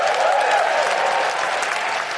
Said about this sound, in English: you're only applauding yourselves. It's your money, gang. You're applauding yourselves.